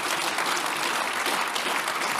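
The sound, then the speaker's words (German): Applause from an audience at a political speech: dense, steady clapping that fills the whole stretch at an even, fairly soft level, with no voice over it. “den Applaus abwarten.”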